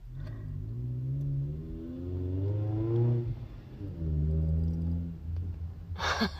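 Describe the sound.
A car engine revving as it drives around nearby, in repeated rising harmonic surges with brief dips between them. A short hissy burst comes near the end.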